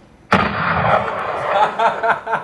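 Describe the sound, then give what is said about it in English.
A Desert Eagle pistol gunshot: one sharp, loud report that breaks into a long, rumbling tail, fading unevenly over the next two seconds. “Hold on, let me hear the desert again. Desert Eagle? Clap it again.”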